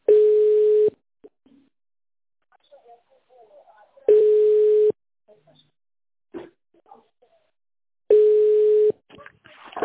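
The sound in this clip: While a telephone call is being placed, the ringback tone sounds three times: steady mid-pitched beeps of about a second each, at even intervals. Faint scattered sounds fill the quiet gaps between them.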